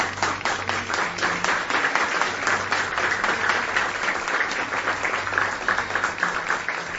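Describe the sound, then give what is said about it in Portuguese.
Audience applause during a religious talk honoring former teachers: sustained, brisk clapping at a steady moderate level for about seven seconds, with individual claps standing out in the mix. “Uma salva de palmas para eles.”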